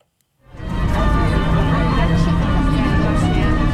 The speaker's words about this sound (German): Eine kleine Wandergruppe fährt in einem weißen Kleinbus aus der Hauptstadt Erbil heraus, der Hauptstadt der autonomen Region Kurdistan.